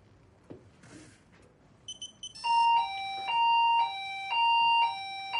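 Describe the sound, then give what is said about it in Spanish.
A shop's alarm panel sounds at night: a few short electronic beeps, then three loud sustained bursts of alternating high and lower tones in a steady repeating pattern. “De noche, Sofía apaga las luces de la tienda. Mark está a su lado. Ella se acerca al panel de la alarma.”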